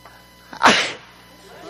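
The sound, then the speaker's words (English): A single human sneeze bursts out sharp and loud after a faint breath in, then trails off quickly into quiet. “See, I'm going to sneeze. I can't even cover myself.”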